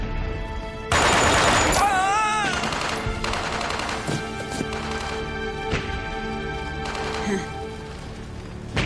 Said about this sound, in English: And then she just cuts him down with Hugo's machine gun.